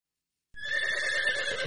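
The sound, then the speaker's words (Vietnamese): A black horse neighs after about half a second of silence, giving one loud, sustained whinny with a bright, quavering tone that holds to the end. “Trường Sinh mở cửa sổ sau ra nhìn, con ngựa huyết thống đã biến mất, chỉ còn lại Hắc công tử đang hí vang, dùng chân trước bới đất”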